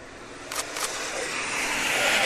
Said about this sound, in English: And the trucks are starting to come round now, just in the background here.